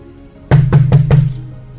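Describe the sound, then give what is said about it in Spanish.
Four quick, firm knocks on a door late at night, evenly spaced with a dull, resonant thud. A low hum carries under the knocks and fades out afterward. “Golpeó en la puerta, 11 de la noche.”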